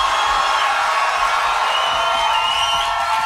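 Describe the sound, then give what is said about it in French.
A concert crowd in a Montreal radio studio cheers and shouts in a dense, unbroken wash of noise that stays loud and even from start to finish. “Est-ce que la foule qui est ici avec moi à Montréal est en forme? Si oui, faites du bruit.”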